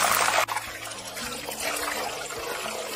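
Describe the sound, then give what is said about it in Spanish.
Wet potatoes spatter and sizzle as they fry for a potato and onion tortilla: a dense, loud hiss of popping droplets that dips briefly near the start, then carries on steadily. “Sabes que está un poquito mojada y por eso están saltando. Va a ser una tortilla de papa con cebolla. Vamos a dejarla que se fría esto bien.”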